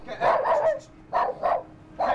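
Dogs barking during an obedience training session in an outdoor prison courtyard: a quick burst of several barks and yips, then a few more single barks spaced apart.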